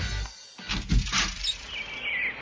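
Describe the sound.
Birds chirp in early spring with faint, high twittering calls, a few short chirps over a soft, muffled background.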